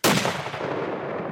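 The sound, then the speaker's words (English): A single rifle shot fired at a white-tailed deer carcass, the gun loaded with just one bullet. It is one sharp, loud crack followed by a long, gradually fading rumbling tail. No voices. “He loads just one bullet into the magazine, even though it can hold four. You're going to kill this deer with one shot.”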